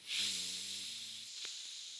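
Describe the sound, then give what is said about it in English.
A deep breath blown out during a guided chakra meditation: one long, soft, airy exhale that trails off slowly. It is faint, with a brief low hum of voice near its start. “Take a deep breath in and blow into your heart chakra. Take another deep breath in.”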